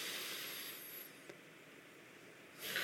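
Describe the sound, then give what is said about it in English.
A deep breath drawn in slowly through the nose gives a faint, steady airy hiss that swells again briefly near the end, with no talking. “simply take some time and breathe deeply in and out of my nose, breathing in,”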